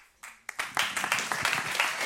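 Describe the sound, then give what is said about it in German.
Audience clapping at a church gathering: a few scattered claps first, then a dense, steady round of applause that keeps building and holds at a fairly loud level to the end. “Es ist so cool, dass ihr klatscht”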